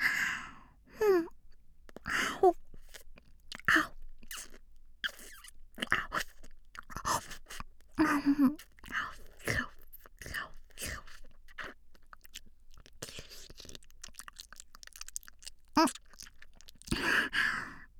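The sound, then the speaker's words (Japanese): Close, wet licking and mouth sounds from ear-licking ASMR: many soft smacks and moist clicks scattered irregularly across the stretch, mixed with quiet sighs and breaths. “お兄ちゃんの耳もっと舐めていい？お兄ちゃんの耳美味しいんだもん。”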